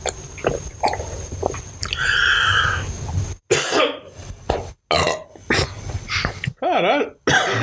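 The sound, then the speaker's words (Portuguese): A run of harsh coughs and throat noises breaks off into a burp, with a long gurgling belch of wavering pitch near the end. “Eu tossi, interrompeu a tosse e arrotei.”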